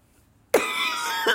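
A harsh cough bursts in after near silence, a rasping sound that holds steady for almost a second, then a second hacking push comes at the very end.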